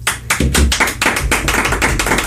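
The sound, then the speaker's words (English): Audience clapping at a small music show: many quick, uneven claps overlap in a busy, fairly loud patter that runs the whole way through, with no voices over it. “Clap.”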